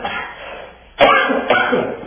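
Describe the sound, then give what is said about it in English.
Coughing from a person with a scratchy throat: two sharp, rough coughs about half a second apart, the first louder, after a stretch of quieter breathy noise. “Pardon me while I cough yet again.”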